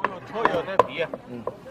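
A knife chops vegetables and meat on a board as volunteers cook together in a busy kitchen. Several sharp, fairly quiet chops come at an uneven pace.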